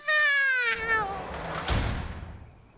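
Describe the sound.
A cat in a shop gives one loud, drawn-out meow whose pitch falls slightly as it stretches out. Noisy rustling follows and fades away.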